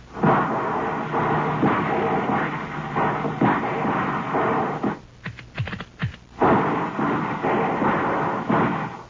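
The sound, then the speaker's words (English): Quick volleys of gunfire into a clearing: a short cluster of sharp cracks bursts out midway through a continuous rough, rumbling background. “let's give them 3 quick volleys. One over there by that tree that's fallen into the clearing. One over there to the right, and one to the left. Fire well above the height of a standing man.”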